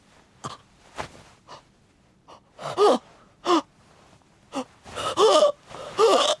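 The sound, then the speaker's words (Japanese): Shallow, wheezing breathing: many short, gasping breaths in an irregular series, several with a whistling, strained tone. They grow louder and more labored toward the end. “呼吸が浅くなってる。まずい、このままじゃ。響きくん、口閉じて、鼻で息して。”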